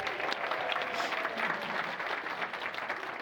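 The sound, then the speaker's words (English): Faint, steady applause at an Easter morning church service as the elementary kids are welcomed, with continuous clapping and no break. “let's take a moment to welcome some special guests here this morning. We have all of our elementary kids with us. So give them a hand.”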